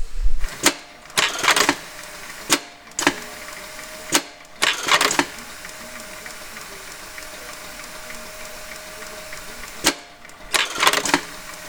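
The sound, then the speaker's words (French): A sewing machine stitches a label onto the band of a felt hat in a hat workshop: a few short clattering bursts of rapid stitching, separated by quieter stretches with a low steady hum. “Là, on vient de faire quelques points pour, voilà, pour mettre l'étiquette sur le galon.”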